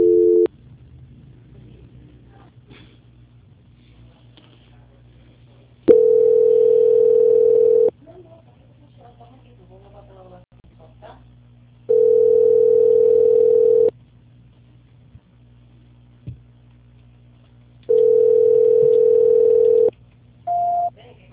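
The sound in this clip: An unanswered telephone call rings as a steady ringback tone, repeating in long two-second bursts roughly every six seconds with quiet gaps between, ending with a short, higher tone.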